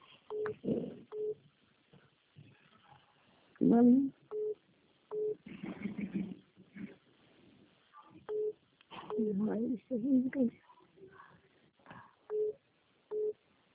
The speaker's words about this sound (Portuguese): Espera, amigo, tá ligando de novo. Olha, você caiu.